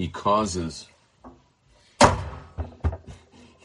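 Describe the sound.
A door is slammed shut hard so it will latch: one loud thud after a short stretch of talk, followed by a few smaller knocks and rattles.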